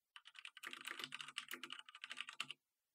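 Rapid typing on a computer keyboard as a question is entered into a chat bot, with many quick, crisp keystrokes in an uneven stream and no voices.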